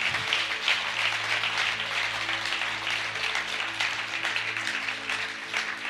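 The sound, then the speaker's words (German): Applause from an audience at a church worship service, a dense, steady wash of clapping that continues evenly for about six seconds without voices over it. “Herr, gib mal einen Applaus für die Menschen”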